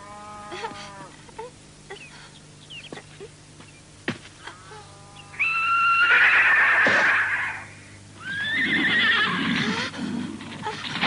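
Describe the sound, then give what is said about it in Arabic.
A wild horse neighs in two long, loud, quavering whinnies, the first breaking off briefly before the second, after a quieter stretch of short faint calls and clicks. “ماذا؟ حصان متوحش؟”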